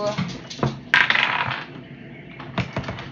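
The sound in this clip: Rolling d20 dice clatter during a tabletop role-playing skill challenge: a few sharp plastic clicks and rattles, with one denser burst of tumbling near the middle and more taps toward the end.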